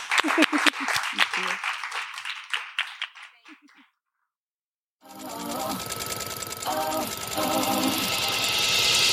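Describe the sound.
Applause from an audience at a live sewing-group event: dense clapping that thins out and fades over a few seconds, then breaks off into silence before a steady sound starts.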